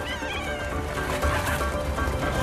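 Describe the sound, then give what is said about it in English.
Cat yowling as it flees chasing dogs along a river: drawn-out, strained meows over a continuous rushing background noise. “Cat runs along the water with its eyes wide and ears back. Cat leaps onto several small green tufts, crossing the river.”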